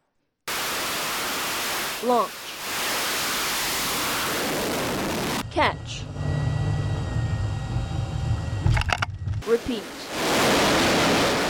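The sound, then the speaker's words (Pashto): Jet roar from bomber aircraft flying off a US Navy aircraft carrier anchored in the Mediterranean: a steady, loud, broad rumble breaks midway into a rattling, humming stretch, then the roar returns. “دا په بحیره روم کې د لنګر انداز یو ایس ایس جارج ایچ ډبلیو بش په نوم د امریکای سمندري جنگي بیړۍ نه د پرواز کوونکو بمبار جهازونو غوګونه وو.”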